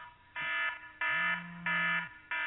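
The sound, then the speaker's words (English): An alarm clock going off: four loud, shrill electronic beeping bursts at a steady, even rhythm. The last burst is cut off at the end. “that's my alarm. Hear that?”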